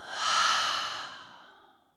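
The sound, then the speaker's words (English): One long, deep breath is exhaled through the open mouth as an airy sigh. It swells quickly, then fades smoothly over about two seconds, with no talking. “take a deep, full breath in through the nose. Bring that intention all the way down into the body to land. And then open the mouth and let it out.”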